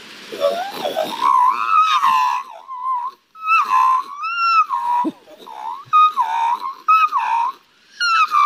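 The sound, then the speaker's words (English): A man's voice imitates a magpie's call in a run of warbling, fluting whistled phrases. The phrases swoop up and down in pitch with gurgling trills, separated by short pauses. “has the most incredible talent you have ever heard, and that is the call of a magpie”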